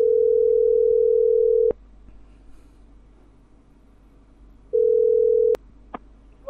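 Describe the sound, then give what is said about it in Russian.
Telephone line tones while a call is being placed: a steady, loud single-pitch tone, a pause of low line hiss, a second shorter identical tone, then a few brief higher beeps. No voices. “Ребят, давайте еще раз позвоним вот этим, которые трубки передавали там.”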